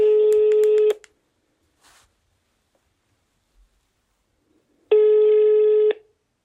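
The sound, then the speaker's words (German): A telephone ringing tone sounds on an outgoing call to a retired murder investigator. Two steady, low, buzzing tones last about one second each, with roughly four seconds of near silence between them. “Ich rufe nochmal einen ehemaligen Mordermittler an.”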